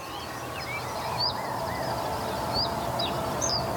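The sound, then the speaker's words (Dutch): Faint reed bunting song: a few short, high chirping notes stand out over a steady wash of outdoor background noise. “Ja, dit is echt die rietgors.”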